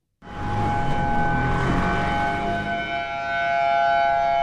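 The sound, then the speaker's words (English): Tsunami warning sirens sound across a city, in Honolulu. A loud, steady, sustained tone starts abruptly and holds for several seconds, its level dipping slightly midway. “That is the sound of the warning sirens just minutes ago in Honolulu, which is under a tsunami threat right now.”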